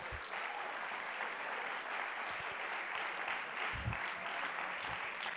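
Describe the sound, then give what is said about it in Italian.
Applause from an audience at a Sunday church gathering, a dense, steady patter of many hands clapping without pause for the whole stretch, fairly soft and even in level. “E c'è stato, ci sta un applauso.”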